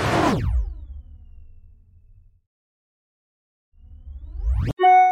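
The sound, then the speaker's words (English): New-mail notification sound effect: a falling whoosh fades to silence, then a rising whoosh returns and cuts into a brief, bright electronic chime. “You've got mail. We have a very nice voicemail from Michael.”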